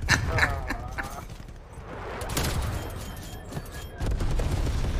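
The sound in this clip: Gunfire in a video game, a few loud booming bursts with rumbling tails separated by brief lulls, the shots dense and layered rather than cleanly separated.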